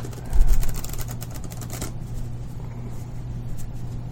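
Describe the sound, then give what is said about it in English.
Large playing cards are riffle-shuffled in one rapid, papery flutter lasting under two seconds, louder at the start, followed by quiet background noise. “she's going to a place where they shuffle cards better than this. Well, they're big cards. They're a little hard to handle.”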